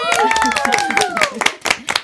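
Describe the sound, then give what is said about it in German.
Clapping breaks out during a children's job-guessing game: a short run of sharp claps with voices and tonal sounds mixed over it. “Spontaner Applaus.”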